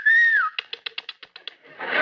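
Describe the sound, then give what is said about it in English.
A man whistles at a woman as a greeting, one clear high whistle sliding downward, then a quick run of short pulsed notes. “In Brazil, you actually have men who whistle at women?”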